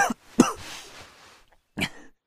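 Coughing from someone with a fractured rib and a faint taste of blood in the throat: a few harsh, raspy bursts, the loudest followed by a breathy trailing hiss, then one more short cough after a pause.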